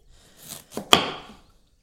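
A knife slices a little gem lettuce weighing just over a kilo in half. A few crisp cutting sounds build to a final sharper crunch, then fade, heard alone.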